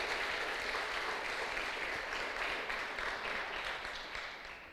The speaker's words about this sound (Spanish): Denle un fuerte aplauso al que vive por los siglos de los siglos.